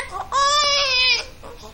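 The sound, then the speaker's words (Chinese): A hungry baby cries in one sustained, high, strained wail of about a second, with brief fainter whimpers just before and after it. “哦，不哭！淑霞，孩子饿了。”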